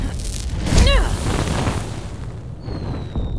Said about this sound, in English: Leo, can you throw a fireball down one tunnel? While it chases the noise, we can hide in the other tunnel.